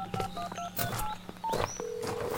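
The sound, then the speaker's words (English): Cell phone keypad tones from a call being dialed: a quick run of short, evenly pitched beeps at the start, followed by scattered clatter and a longer steady tone. “I better call Jason. I'm not getting a signal on the cell phone.”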